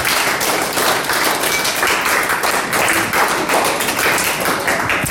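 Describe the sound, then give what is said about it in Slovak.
Loud, dense applause from an audience at a school awards ceremony as a prize is presented, a steady wash of many hands clapping that holds at full strength from start to finish. “Takže ďakujeme krásnejšie. Veľký aplauz, tak, správni.”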